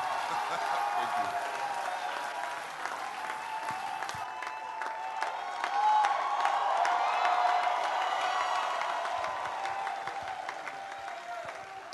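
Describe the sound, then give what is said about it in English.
A church audience cheers and applauds to welcome a preacher, with dense, steady clapping mixed with shouts and whoops throughout. The noise swells slightly partway through. “Ladies and gentlemen, stand up on your feet and welcome with me with a loud shout of victory, Apostle Michael Orobo.”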